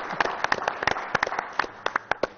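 People clap for someone in a series of sharp, distinct handclaps. The loose, uneven rhythm stays fairly loud and crisp throughout.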